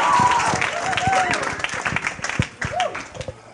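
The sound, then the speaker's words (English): Audience applause welcoming a speaker: brisk clapping that starts full and gradually thins and fades, with a voice or two calling out over it. “So give it up for Joe. Give him a little hand. Make him feel welcome.”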